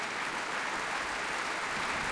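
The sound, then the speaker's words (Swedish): Applause from a concert audience for an orchestra: dense, steady clapping that holds an even level for the whole two seconds, with no clear voices on top. “Ja, det är applåder för alla.”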